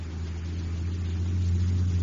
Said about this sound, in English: And here it comes, pulled along by an honest-to-goodness full-size motor truck. A giant silver and scarlet space rocket, Terra 4.